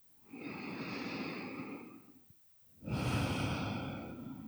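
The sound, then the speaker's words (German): Two long, deep breaths, a steady breathing sound with an airy hiss, taken during a guided relaxation exercise with one hand on the lower belly and one on the heart; a long inhale or exhale, a short pause, then another full breath, moderately loud. “Dann nimm hier ein paar tiefere Atemzüge ein und aus.”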